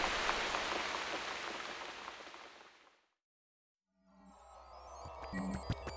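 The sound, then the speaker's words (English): Rain from a play rain machine comes as a dense, steady hiss that slowly fades away into a moment of silence. Fainter, different tonal sounds follow. “Oh no, it's raining. Now I'm wet, and everything is wet.”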